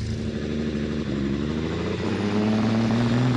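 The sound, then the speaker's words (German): Engine of a new Hillman car driving along, a steady mid-pitched motor drone with even harmonics that grows slightly louder toward the end. “Ja, gar nicht schlecht, der neue Hillman. Die Besitzer sollen sehr zufrieden sein, hat man mir versichert.”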